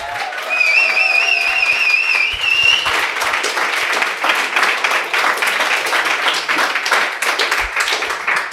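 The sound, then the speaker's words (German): Crowd noise fills a packed pop-up store in Berlin-Mitte, a loud, continuous wash of clapping and murmur, with a few thin high tones near the start. “Wir sind im Pop-Up-Store von Vi hier in Berlin in Mitte und der Laden ist voll. Ihr könnt es hören.”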